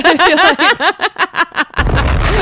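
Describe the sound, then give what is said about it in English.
A cartoonish head-exploding sound effect: a rapid run of short, pulsing tonal bursts leads into a loud, noisy blast that carries on to the end. “Oh, the head exploding.”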